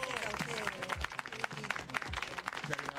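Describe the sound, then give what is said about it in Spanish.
Audience applause at a talk, a dense, steady wash of clapping with crowd noise running through the whole clip at moderate loudness, with no voice standing out. “Bueno, vamos a aplaudir, gracias de verdad.”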